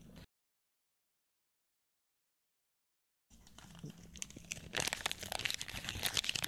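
Crinkling plastic wrapper as a pack of trading cards is torn open. After a silent gap, the crackling starts softly and grows busier and louder toward the end.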